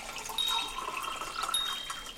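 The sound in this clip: Fresh water pours into a cup in a steady, bubbling trickle lasting about two seconds, rising briefly in strength twice. No voices are heard.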